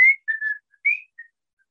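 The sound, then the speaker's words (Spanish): Someone whistles the opening of a song: five clear, high, short notes in a quick phrase with a brief gap in the middle. The whistling is loud and alone, with no voices. “la canción empieza con un silbido”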